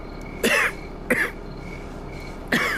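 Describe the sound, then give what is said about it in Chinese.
Three separate coughs from a person whose cough has been getting steadily worse, each a short, harsh burst with uneven gaps between them, the second briefer than the others. “您这咳嗽越来越厉害了，您可要保重身体啊。”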